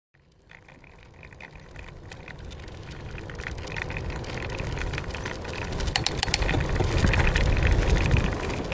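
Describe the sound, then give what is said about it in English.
A bicycle ride outdoors on the South Island, with a rushing wash of wind and road noise mixed with light rattling that gradually grows louder and busier over several seconds. “All right, so to honor that interview, I decided I'd go for a bike ride. So I'm currently biking on the South Island, and I am almost at the end of the extreme end of the South Island”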